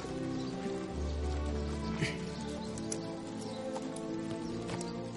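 Hooves clip-clop steadily and softly as a horse is mounted and ridden away, in a fantasy drama scene.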